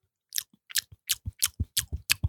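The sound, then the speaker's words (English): Wet lip smacking while tasting a hoppy beer for black tea flavors: a steady series of sharp, crisp smacks and clicks, heard alone without talk. “There's some lip smacking ASMR to get those black tea flavors.”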